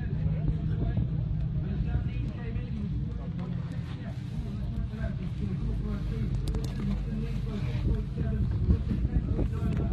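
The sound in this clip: Sunny, biting wind blows across an outdoor spectator stand as a steady low rumble and buffeting that fills the whole clip, with indistinct voices faintly underneath.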